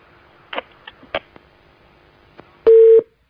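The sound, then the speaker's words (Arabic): Telephone line tones of an incoming call: a few faint clicks, then one short, loud, steady beep near the end. No one talks. “طيب نستقبل مكالمة أخرى. اتصالا آخر.”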